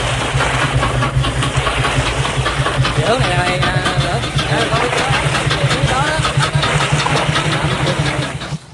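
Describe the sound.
A boat's engine runs as the boat sets off downriver. It makes a loud, steady mid-pitched rumble with a dense rattling texture that holds constant throughout.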